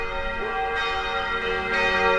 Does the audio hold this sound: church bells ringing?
yes